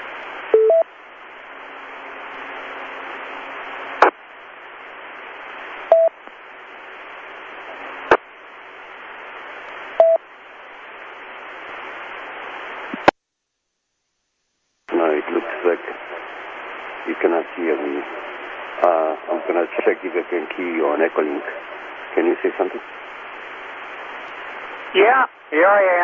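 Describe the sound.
An amateur radio transmission, narrow and band-limited, hisses with steady static broken by sharp clicks and a few short tones. After a brief dead gap, a voice speaks over the radio channel.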